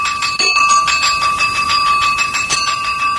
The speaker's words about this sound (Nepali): आज त पिरियड सकिएको पनि थाहै भएन, कति छिटो घन्टी बज्यो।